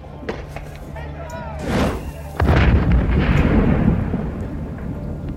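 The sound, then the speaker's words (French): Tear gas grenades launched by gendarmes behind light armoured vehicles during night clashes at barricades in Plogoff, 1980: a deep thump is followed by a loud, sustained rushing roar that slowly eases, with voices early on. “Derrière leurs blindés légers, les gendarmes ne progressent que mètre par mètre et lancent des grenades lacrymogènes.”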